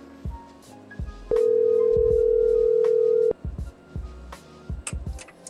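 A telephone call tone sounds as a single steady, even pitch lasting about two seconds, set among soft clicks and thumps before and after it.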